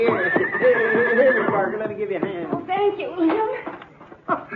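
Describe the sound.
A horse whinnies loudly in a long, wavering call while hooves clip-clop, as a rider dismounts. People talk over and between the sounds, and sharp hoof knocks punctuate the stretch.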